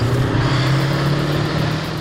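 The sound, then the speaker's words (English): Engine rumble from a Warrior armoured vehicle driving laps around a show arena: a steady, heavy low drone that holds evenly throughout, with no voices. “Opening the annual Tank Fest celebration in Dorset, Warrant Officer Bahari drove laps around the arena in his old workhorse Warrior”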